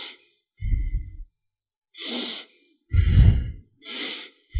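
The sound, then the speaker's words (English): Deep abdominal breathing: slow, full breaths that alternate between a low, heavy rush of air and a softer, airy hiss, repeating a few times with short silent pauses between them. “Usually when we breathe, the chest goes up. Now in this breathing, let the abdomen go up with your breath. Let air fill the abdomen like this.”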